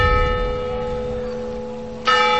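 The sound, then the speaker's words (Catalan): Church bells ring the noon hour in a village church square, a loud sustained metallic ringing with steady tones and a fresh, bright strike near the end. “Les campanes de Flix toquen les 12.”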